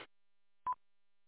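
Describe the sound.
A single short electronic beep signals an incoming phone call: one brief, steady tone sounding alone in silence.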